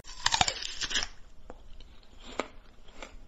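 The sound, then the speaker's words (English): Someone bites into an onion with a crisp burst of crackling crunches, followed by quieter, scattered chewing crunches. “I'm just having a bite of it right now. I've got one of the onions right here.”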